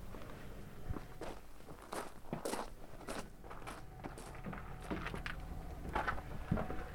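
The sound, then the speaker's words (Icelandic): Footsteps of someone walking toward a house, many steady, irregular steps that shuffle and crunch at moderate loudness, with no voices. “Við skulum ganga aðeins hérna að húsinu”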